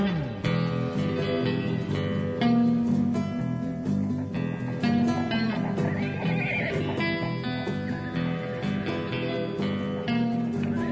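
A horse-riding sound effect plays: horses neigh and whinny several times over a steady clip-clop of hooves. The sound stays loud and unbroken for the whole stretch, with no voices.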